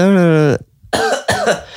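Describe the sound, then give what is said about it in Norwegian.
Deliberate coughing from one person, shown as an example of what coughing during a recording would sound like: a drawn-out voiced sound, a short pause, then two quick, rough bursts. “det går ju inte att spela in podcast hvis man hostar vart 30 sekund”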